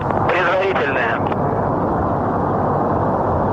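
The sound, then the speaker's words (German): Rocket engines of the Progress resupply vehicle roar at liftoff, a loud, dense, continuous rumble that holds steady for the whole clip, with a brief tonal whine near the start. “Turbo pumps are coming up to flight speed. And liftoff of the 94th Progress resupply vehicle en route with 2.7 tons”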